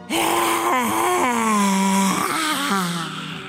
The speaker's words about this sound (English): Once more, breathe in. Vocal breath.